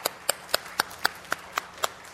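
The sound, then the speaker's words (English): Hand claps in applause for volunteers: eight sharp, evenly spaced claps at a brisk, regular beat, fairly soft, with no talk over them. “All right, let's get a round of applause for all of our volunteers.”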